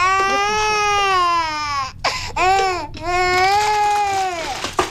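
A hungry baby crying: loud, high, harmonic wails, with a long cry, a short broken sob, then another long wail, all drawn out and strained.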